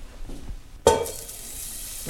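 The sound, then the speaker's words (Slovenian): Onion frying golden in a pan, a soft steady sizzle with one sharp clink of a utensil partway through, after which the hiss continues evenly. “Tako, čebula se zdaj že zlato rumeno opražila in zdaj bom pa dodal še bel fižol.”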